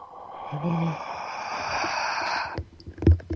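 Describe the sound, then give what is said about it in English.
A slow breath in is drawn audibly for about two seconds as a steady, airy hiss. It ends with a few soft clicks and small noises. “I set the music to the tempo of a slow breath. So say the breath is like this,”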